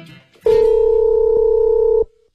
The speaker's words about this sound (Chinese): 咱们现在就给他把电话给拨回去吧。